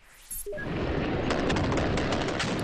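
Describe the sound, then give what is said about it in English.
Gunfire in a fierce gun battle between Taliban fighters and security forces over UN and government buildings in Afghanistan: a dense, loud roar with repeated sharp cracks in the second half. “gunfire. It's a fierce gun battle that broke out in between a team of Taliban fighters who were targeting UN and government buildings and the security forces there.”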